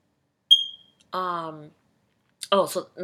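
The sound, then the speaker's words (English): A smoke alarm beeps because its battery is low. A single short, high-pitched chirp sounds once, then a person talks. “So that is my alarm. I need to change the battery. Don't judge me because your alarm is probably beeping too”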